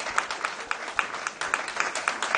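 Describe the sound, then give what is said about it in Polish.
Audience applause for a band at a music competition final: many hands clapping in a brisk, uneven patter of sharp claps, moderately loud and steady throughout. “Wielkie brawa.”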